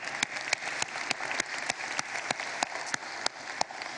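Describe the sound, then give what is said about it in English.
An audience applauds in a worship center. The claps are sparse and scattered, sounding as thin, separate pats at a moderate level throughout. “For those of you here in the room, would you please give our online television audience a big hand?”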